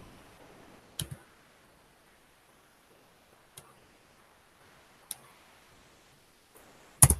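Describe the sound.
Computer mouse clicks on a link: four sharp, isolated clicks, some doubled, spaced a few seconds apart over a quiet background.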